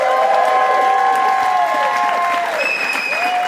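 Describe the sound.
An audience applauds loudly to welcome a comedian, a dense, steady roar of clapping with some voices mixed in, sustained throughout.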